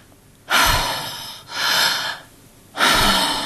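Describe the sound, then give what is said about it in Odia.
Three deep, forceful breaths from a person being checked over, each a loud, noisy rush of air separated by quieter pauses, with no talk. “ଟିକେ ଜୋରରେ ନିଶ୍ୱାସ ନିଅ।”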